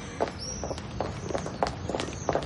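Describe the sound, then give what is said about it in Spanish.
A woman's footsteps as she walks behind another woman into a garden: soft, evenly paced steps over a faint steady background. “Se aleja. Ven, te sentará bien. Beatriz camina tras ella.”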